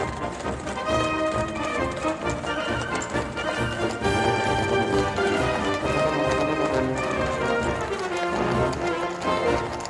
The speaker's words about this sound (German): Eine Schwadron Kavallerie tauchte am Horizont auf und preschte im Galopp auf uns zu.